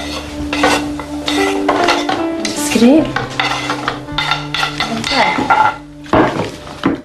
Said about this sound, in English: Joe scrapes the celery into a wooden bowl.